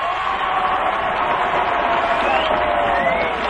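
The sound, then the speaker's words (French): A crowd at a show-jumping event cheers a silver medallist: a continuous roar of voices with scattered whoops and shouts, steady and fairly loud throughout. “Et là, ce sera l'ovation. Michel Vaillancourt, médaille d'argent.”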